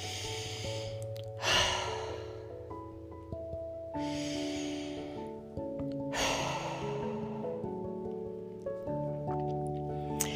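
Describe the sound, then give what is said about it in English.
Slow cleansing breaths, soft airy inhales and exhales that swell and fade a few times, faint beneath gentle sustained background music. “Okay, now take a couple cleansing breaths.”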